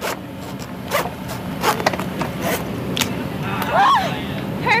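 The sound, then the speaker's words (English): Rasping strokes of a bone saw splitting open the head of a yellow-edged grouper, a few short gritty bursts spaced unevenly, with voices in between. “When they're done with that, they reach for the bone saw.”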